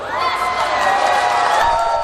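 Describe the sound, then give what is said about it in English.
Passengers at Atlanta's airport cheer loudly when power returns after an outage. Many voices shout and whoop together in a sustained, boisterous roar. “Passengers in Atlanta cheered when the power was restored late last night.”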